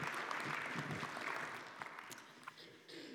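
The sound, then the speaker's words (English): Applause from a church audience giving a warm welcome to a guest speaker. The dense, soft patter of many hands continues steadily and thins slightly toward the end. “So let's give her another warm First Church welcome.”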